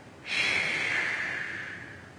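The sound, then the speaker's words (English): A loud, breathy rush of air, like a sharp inhale, from a man on a stage. It starts abruptly, then fades slowly over about two seconds, with no talk. “Then you hear someone inhale very loudly. He holds his breath for about 5 seconds and then exhales.”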